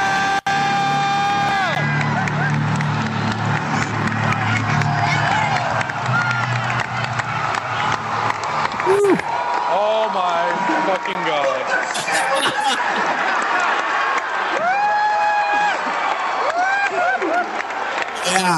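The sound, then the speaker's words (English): The Hall H crowd at San Diego Comic-Con 2013 cheers, claps and laughs at a film announcement, with soundtrack tones and spoken lines heard among the loud reactions. “That was the sound of Hall H when they fucking announced this shit, dude.”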